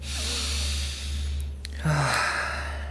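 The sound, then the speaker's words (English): A deep breath taken slowly, soft airy hissing in two drawn-out phases, the second fuller and breathier, over a faint low steady hum. “Let's take a deep breath.”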